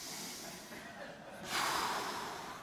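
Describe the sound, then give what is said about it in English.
A church audience draws a collective deep breath, an airy, broad hiss that swells midway and then slowly eases off. “Let's take a deep breath for a second.”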